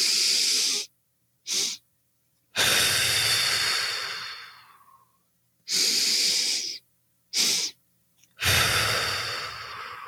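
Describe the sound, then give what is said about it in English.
Physiological sigh breathing: a deep inhalation, a pause, a short second inhale, then a long forceful exhalation that fades out. The airy, hissing pattern is performed twice in a row, with silent gaps between the breaths. “A deep inhalation followed by a pause, and then an additional inhalation followed by a forceful exhalation is the double breath sigh or the physiological sigh. It looks something like this.”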